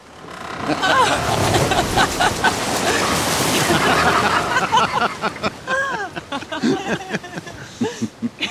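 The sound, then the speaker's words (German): Loud rushing, splashing water as river rapids throw spray over a raft made of raw logs, a broad wash lasting several seconds. Voices and laughter follow as the noise eases. “Nun lenken die Flößer das aus rohen Baumstämmen gemachte Gefährt durch einige Stromschnellen, sodass die Gischt über das Floß spritzt.”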